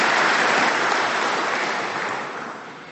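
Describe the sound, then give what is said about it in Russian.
An audience applauds in honour of enterprises' work collectives with a thick, sustained roar of clapping that starts loud and gradually fades over a few seconds, with no talk over it. “Аплодисменты нашим предприятиям.”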